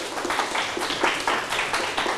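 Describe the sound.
A group of participants claps together after a round of counting. Many fairly regular claps run in a steady rhythm from start to finish.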